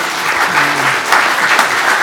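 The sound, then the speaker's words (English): A round of applause for a mayor, council and administration, with many hands clapping steadily at a strong level while a short voice cuts in briefly near the start. “we need to give the mayor and council and our administration a round of applause, please.”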